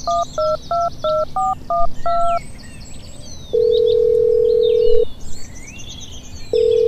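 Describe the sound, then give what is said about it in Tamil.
Telephone keypad dialing tones for a call to a helpline: a quick run of about seven short electronic beeps, then a long steady tone that stops and starts again near the end, with faint high chirps in the background. “நான் வேணும்னா இப்போ 1, 4, 5, 6, 7 கால் பண்ணி உங்க சந்தேகத்தெல்லாம் தீர்த்து வைக்கிறேன்.”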